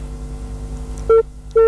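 A dropped phone call gives way to a busy signal: two short, loud, mid-pitched beeps about half a second apart rise over a low background hum.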